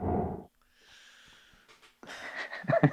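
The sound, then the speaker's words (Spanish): A person takes a deep, wheezy breath after a short vocal sound, then exhales in audible, breathy puffs that grow louder toward the end. “Ah, déjame respirar.”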